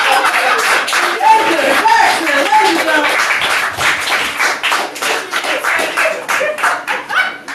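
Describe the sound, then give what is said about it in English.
Audience applause at a live comedy show: dense, crackling clapping that holds steady throughout, with voices mixed in among the claps. “a round of applause for Dan Driscoll”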